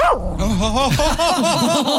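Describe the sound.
A dog vocalizes in a continuous wavering whine or yelp with sliding, warbling pitch, loud and unbroken across the whole moment rather than in separate barks.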